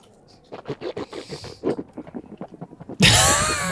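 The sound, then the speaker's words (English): Wet slurping sips of a vanilla bean bourbon imperial stout beer, a quick run of short irregular gulps and smacks, then a sudden loud rush of broad noise in the final second. “So this has whole vanilla beans in it to balance out the bourbon and the stout. Wow. I need to drink a little bit of this to get the IPA out of my...”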